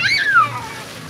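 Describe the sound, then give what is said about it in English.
Children splash in a city fountain in northeast Paris during a summer heat wave. Bright, continuous splashing and sloshing water, with a high sliding squeal near the start. “In northeast Paris, children splash around in a fountain.”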